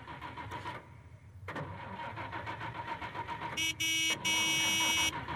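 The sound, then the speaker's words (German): A car engine starts and keeps running with a rough, steady rumble, then two loud, harsh tonal blasts sound near the end. “Aber ich kann ja schon mal den Motor anlassen, ja?”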